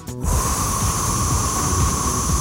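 A deep breath is released during a breathing exercise: a long, loud, steady rush of exhaled air lasting about two seconds, heard alone.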